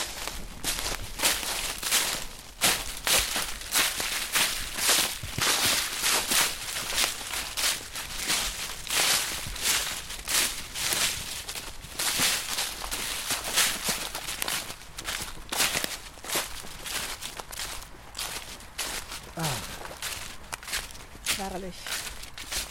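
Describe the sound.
Footsteps of walkers on a hike heading over to a picnic bench, many steady steps with a crunching, rustling texture underfoot, continuing at an even pace throughout.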